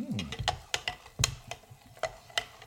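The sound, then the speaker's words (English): A drink with shaved ice being gently stirred in a glass, giving many light, quiet clinks and scrapes in a fairly steady ticking rhythm. “Can you hear that being stirred, ladies and gentlemen? That is authentic stirring.”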